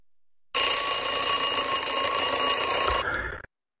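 An alarm clock rings loud and continuous for about two and a half seconds, a bright, buzzing electronic tone that steps down to a weaker tail before cutting off into silence.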